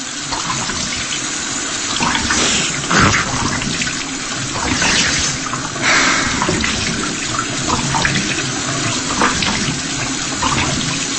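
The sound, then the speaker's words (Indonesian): Water runs steadily from a tap into a washbasin while someone washes their face, a continuous hissing splash that holds an even level for several seconds, with slight surges and no talk. “dan coba membersihkan mukaku. Sambil sesekali memandang ke arah kaca yang ada di wastafel ini.”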